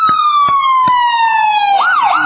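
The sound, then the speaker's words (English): Ambulance siren passing: a loud, steady electronic tone that glides slowly downward, then breaks into a fast rising-and-falling warble near the end. “I'm going to let this ambulance come through.”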